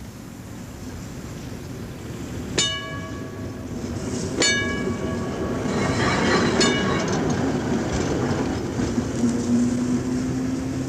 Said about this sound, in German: Über dem in heißer Mittagssonne liegenden Betriebshof der städtischen Straßenbahn fährt langsam der fahrplanmäßige Triebwagen des großen Rings, holt sich im Depot seinen Anhänger